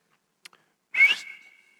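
A person whistles like a shepherd calling sheep: after two faint clicks, one sharp, bright whistle starts with a strong burst, then thins into a steady tone that fades away.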